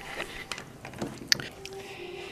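Gingerbread cookies are eaten, with soft, crunchy chewing and one sharp, crisp snap of a bite standing out.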